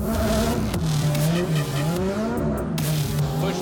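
Loud tire squeal and engine roar from a car drifting through a transition, a continuous sustained screech whose pitch wavers up and down without a break.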